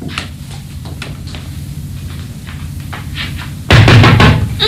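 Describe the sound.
Pounding on a door hard enough that it seems about to break: a few faint raps, then a sudden loud burst of rapid, heavy knocks toward the end.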